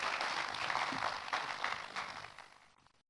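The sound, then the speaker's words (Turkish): An audience applauds at an opening ceremony as a guest is invited onto the stage: dense, steady clapping that thins and fades out toward the end. “Milli Eğitim Bakanımız Sayın Yusuf Tekin'i alkışlarımızla sahneye davet ediyoruz”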